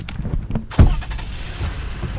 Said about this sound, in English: Do you mind if we go for a drive? No, we'll go for a drive, for sure. Let's go for a drive.